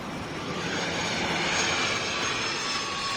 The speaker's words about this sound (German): Schon wieder so ein Privatjet, der das Wochenende nach Mallorca fliegt, das gibt's überhaupt nicht.